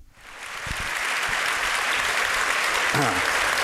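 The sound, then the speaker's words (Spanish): Sustained applause from an audience at the Swedish Academy: dense, even clapping that swells over the first second, then holds steady and loud to the end. “Hay aplausos de parte del auditorio para Mario Vargas Llosa.”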